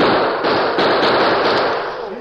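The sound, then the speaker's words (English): A new Colt six-shooter revolver fires a rapid burst of shots, the loud cracks running together into a dense, continuous crackle. “While you're doing that, I'll demonstrate the new Colt. Shall I fire right now? Go ahead.”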